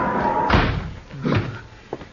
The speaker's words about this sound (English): Let me hit that stove.